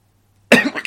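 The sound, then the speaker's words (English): A single short human cough, sharp at the onset and breathy, breaks a near-silent moment with only a low hum beforehand. “That was definitely just a cough, wasn't it?”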